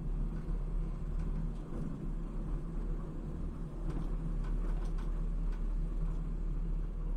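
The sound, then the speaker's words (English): A steady low rumble and mechanical drone from a long elevator ride up a port container crane at a closed Ports America terminal, continuous and even, with a few faint clicks partway through. “It's a very long elevator ride up to the midsection of the crane.”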